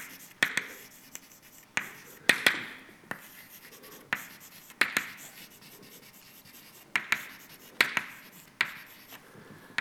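Handwriting while an equation goes up during a lecture: many short, sharp strokes and taps in an irregular rhythm, each one followed by a brief scratchy drag, with no voices.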